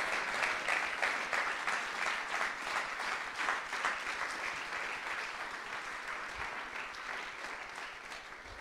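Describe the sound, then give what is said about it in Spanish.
An audience applauding during a church sermon, a long steady run of many hands clapping that stays moderately loud and fades slightly toward the end. “Dele un mejor aplauso a Cristo el Señor, nuestro Dios.”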